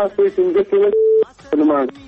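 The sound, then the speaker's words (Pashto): A brief steady telephone tone marks a caller's line dropping on a radio call-in show, a short flat hum set between bursts of talk. “هلو فکر کوم چې اړیکه هم پرې شوله. له بده مرغۍ اړیکه پرې شوله خو خیر شمیره هم ونه ټاکله.”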